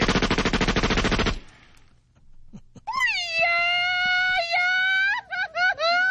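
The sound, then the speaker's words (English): A machine-gun blast sound effect fires as a rapid, loud burst of shots for over a second. After a short quiet gap comes a high, warbling yodel with quick pitch breaks. “Yeah, machine-gun blast with a Mexicana yodel.”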